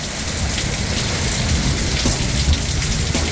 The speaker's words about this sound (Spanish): Escuchamos el sonido ambiente ahí de lo que está, de cómo está la lluvia hasta ahora aquí en Coronel.